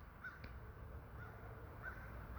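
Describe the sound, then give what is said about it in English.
Faint bird calls from a bird in a yard, a few short thin chirps spaced apart over a steady low background hiss. No voices are heard. “Can you hear the birds? There's a bird in my yard that's making such sweet melodies.”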